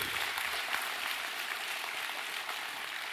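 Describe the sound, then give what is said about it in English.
A church audience applauding, a steady, even round of clapping that continues without a break. “the one that just got saved deserves a round of applause.”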